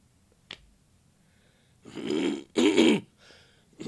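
A person clears their throat in two rough, rasping bursts following a brief faint click, quiet overall with a softer trailing noise after, and no speech.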